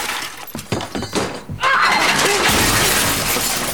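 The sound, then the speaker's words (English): Shelves stacked with glass and china crash down and shatter during a fight. A few dull thuds come first, then a loud, sustained spray of breaking glass and crockery. “The housewife pushes a stack of shelves down onto the bride, showering her with broken glass and china.”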